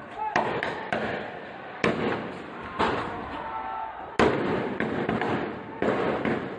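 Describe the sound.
Several sharp cracks of gunfire from security forces on a street during Monday-night protests at a barricaded junction, loud sudden bursts spaced irregularly over a dense, continuous wash of noise.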